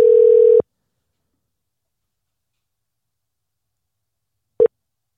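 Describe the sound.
A telephone line gives one steady ringing tone, then goes silent, and a very short tone blip comes near the end.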